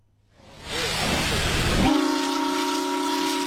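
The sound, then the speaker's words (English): The steam whistle of an almost 120-year-old paddle steamer, restored by volunteers, sounds loud. A hiss of steam swells up first, then a steady, piercing harmonic whistle tone locks in and holds to the end. “The sound of history coming back to life as an almost 120-year-old paddle steamer returns to service following years of volunteer work.”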